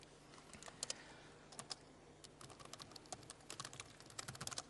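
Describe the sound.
Code is typed on a computer keyboard in a quick, irregular patter of soft key clicks in short bursts, quiet over a faint steady hum.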